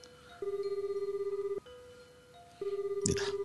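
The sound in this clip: A telephone rings in the anime Q2, sounding as two faint bursts of steady, mid-pitched electronic warbling separated by a short pause.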